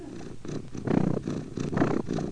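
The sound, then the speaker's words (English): Cat purring, a soft, low rumbling vibration that swells and eases in a few breathing cycles, steady and alone without any talk. “It's cat purr.”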